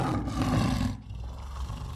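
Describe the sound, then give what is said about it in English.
A lion roars, a deep, rumbling growl that holds for about a second and then drops into a lower, sustained rumble. “His heart quickened as a lion emerged, its golden eyes fixed on a lamb that had strayed from the flock.”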